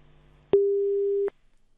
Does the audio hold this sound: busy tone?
yes

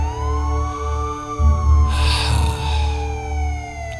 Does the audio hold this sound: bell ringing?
no

